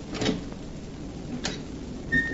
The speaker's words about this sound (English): Be very quiet while I open the door.